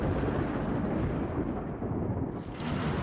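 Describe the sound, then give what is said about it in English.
Thunder rumbles in the rain as a dense, steady low roar that fills the whole stretch without distinct sharp claps. “It begins to rain a little bit, and um, a little bit of thunder.”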